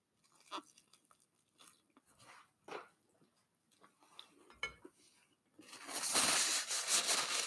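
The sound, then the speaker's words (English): Close-up chewing of food with sun-dried tomatoes: a few soft, moist bites and crunches with faint clinks of utensils, spaced irregularly with quiet gaps between them. “Try my best not to eat directly in the mic.”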